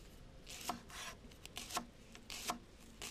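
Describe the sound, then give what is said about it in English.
A knife cuts carrots into thin julienne sticks on a board, giving a series of faint, crisp scraping slices in an uneven rhythm, with no talking. “Then we have to julienne the carrots. Cut them into little sticks, like this.”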